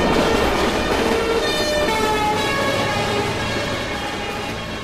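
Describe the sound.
A London Underground train arrives at a platform with a loud, steady rumble and thin, high squealing tones over it from start to end, fading only slightly toward the close.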